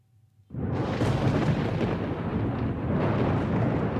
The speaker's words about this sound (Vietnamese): Cùng lúc đó một tia chớp lóe sáng, tiếng sấm rung động cả khu rừng, như là tiếng cười của ông trời cao đang trêu ngươi vậy.